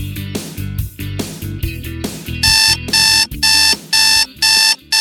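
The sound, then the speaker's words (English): An alarm clock rings, rhythmic tones giving way to loud, regular pulses of shrill electronic beeping that repeat in evenly spaced bursts until the end, with no voices. “Do you know what that sound is? That's your wake-up call.”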